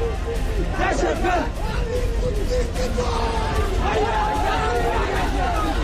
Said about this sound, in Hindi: और अब ये वीडियो देखिए, पीओके में किस तरह से नारे लग रहे हैं।